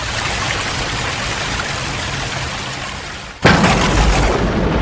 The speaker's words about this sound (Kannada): ಅಯ್ಯೋ, ಎಷ್ಟ್ ಜೋರಾಗಿ ಮಳೆ ಬರ್ತಾ ಇದೆ, ಗಾಡಿ ಬೇರೆ ತಗೊಂಡ್ ಹೋಗ್ತೀಯಾ?